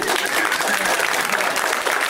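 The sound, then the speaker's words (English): Comedy show audience applauding a guest, loud continuous clapping from many hands that stays level throughout. “Let's hear for this wonderful woman.”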